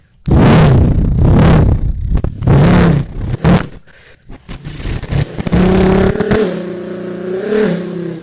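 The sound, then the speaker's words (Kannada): A motorbike engine revs in repeated loud, throaty bursts, with pops and sputters between them. It then settles into a steadier, humming drone with a slightly wavering pitch. “ಅಲ್ಲಿ bike ಒಂದು ಇತ್ತು, ಇದರ ಶಬ್ದ”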